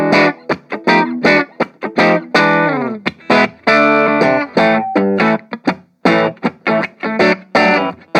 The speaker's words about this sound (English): So we'll tweak some of the EQ settings here just to give you a range of what's going on. I like to back the treble off on the orange amps, push the mids and push the bass a little bit.